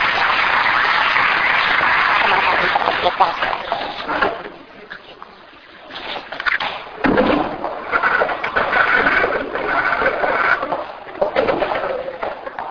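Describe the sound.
Audience applause welcoming an Old Testament teacher at a church gathering: dense, sustained clapping that briefly dies down midway, then swells again and continues for several seconds.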